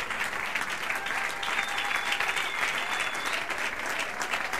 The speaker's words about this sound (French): Est-ce que nous pouvons nous lever pour faire bien ce que nous avons commencé à faire là, acclamer Dieu?